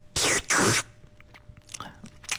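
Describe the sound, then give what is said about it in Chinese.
Glass noodles are tasted with two loud, noisy bursts of eating, followed by faint, scattered chewing sounds. “好，接下来我再来尝一尝粉条的口感啊。”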